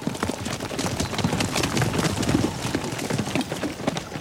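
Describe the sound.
Several horses gallop hard as riders flee pursuers, making a dense, continuous drumming of rapid hoof thuds at a steady, fairly loud level, with no voices.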